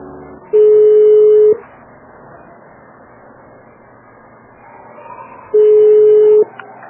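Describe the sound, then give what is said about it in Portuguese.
Telephone tone while a call is being transferred to a busy line: two steady mid-pitched tones, each about a second long and several seconds apart, over a low background hiss. “Tentei passar, mas tá ocupado.”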